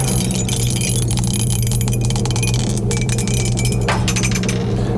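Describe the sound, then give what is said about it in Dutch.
Dice rattle in a song-picking board game, many small clicking, clinking taps scattered across a steady background hum. “We gaan dobbelen. Oeps.”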